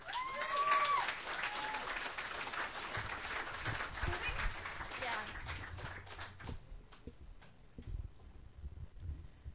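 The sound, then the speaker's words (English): At a Sunday night open mic, an audience applauds a singer who is being welcomed to the stage. The clapping is sustained, with voices over it, and it thins out and fades after about six seconds. “It's a pleasure to welcome her to the stage. Please, put your hands together.”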